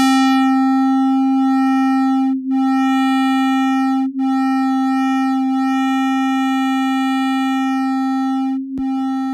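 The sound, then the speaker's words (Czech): The sun's oscillations, converted into audible sound, form a steady electronic drone of stacked pure tones over a strong low hum. The drone holds at a constant loudness apart from a few brief dips. “I oscilace slunce jsem převedl na zvuk, ale pozor, v tomto případě nebylo potřeba škálovat, protože slunce pulzuje na frekvencích, které jsou pro nás pohodlně slyšitelné. Takže nebýt vákua vesmírného prostoru, znělo by slunce asi nějak takto.”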